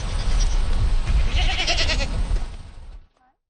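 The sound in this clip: Goats on a farm bleat while being fed, a loud overlapping chorus of bleats over rustling and shuffling that stops abruptly near the end.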